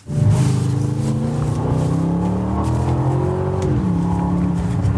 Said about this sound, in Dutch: En dan mochten we ook nog in de Aston Martin DBX rijden. Die hebben we even getest. En dit is het resultaat.